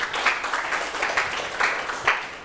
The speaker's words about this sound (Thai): ปรบมือเพื่อนหน่อยครับ